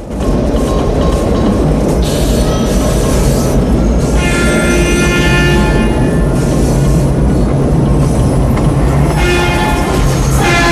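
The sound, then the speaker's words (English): A train passing in the opposite direction during a chase, heard as a loud, continuous rumble of rolling wheels with recurring high squealing tones over the whole stretch. “A train is coming in the opposite direction.”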